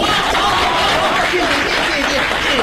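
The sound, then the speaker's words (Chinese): Audience applause at a Beijing stage comedy show, a continuous, even wash of clapping mixed with chuckles and chatter, with voices over it. “谢谢大家的掌声啊。”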